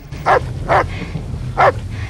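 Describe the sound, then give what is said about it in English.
A dog barks three times, loud and sharp, with uneven gaps between the barks over a low background hum. “It's the dog. What? It's the dog.”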